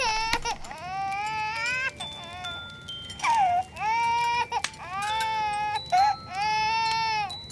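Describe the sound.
A baby wails in many long, high, straining cries with brief breaths between them, loud and alone.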